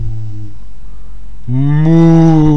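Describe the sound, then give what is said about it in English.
A human voice imitates cows mooing with low, drawn-out, nasal tones: a short moo, a pause, then a longer and louder moo. “the sounds of cows grazing far in the moonlight. Moo, moo,”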